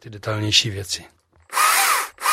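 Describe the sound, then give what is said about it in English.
A battery-operated chainsaw carves fine detail into a wooden nativity figure. Two short whirring motor bursts come first, then a pause, then a loud, longer rasping burst as the chain bites into the wood. “This is a battery-operated chainsaw, which I use for the more detailed things.”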